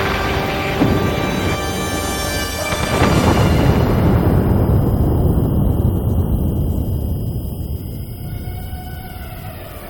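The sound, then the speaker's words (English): A missile strikes an office and explodes: after a few seconds of steady tonal drone, a heavy, deep blast erupts and rolls on as a loud, sustained rumbling roar that slowly fades. “For him, destroying Arafat was a main goal. A missile directly hits his office.”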